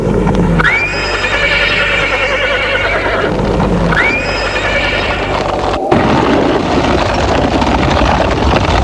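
A horse neighing as a rider mounts the saddle: two loud whinnies, each a shrill, wavering call, spaced a few seconds apart over steady background noise.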